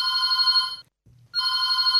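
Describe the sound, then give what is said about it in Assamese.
A telephone rings for an incoming call. Two loud, bright electronic ring bursts are split by a short silent gap, with a faint pulsing low hum beneath them. “Phone in গানে গানে অনুষ্ঠানৰ ফোনতে phone কলটি লওঁ।”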